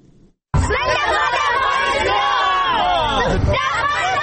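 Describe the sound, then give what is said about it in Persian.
Afghan children chant slogans at an Independence Day celebration in Kabul. After a brief quiet start, their loud, sustained chorus breaks in suddenly and carries on as one shouted, many-voiced chant to the end. “این صدای کودکان افغان است که به خاطر تجلیل از جشن استرداد استقلال افغانستان شعار سر می دهند.”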